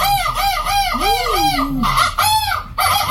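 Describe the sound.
A bird mating call sound effect: a rooster's drawn-out crow over a rapid, loud run of repeated clucking that carries on throughout.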